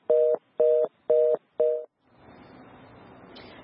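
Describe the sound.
Telephone tone beeps on a dropped call: four evenly spaced, loud, steady-pitched beeps, then a low, even hiss of line noise to the end.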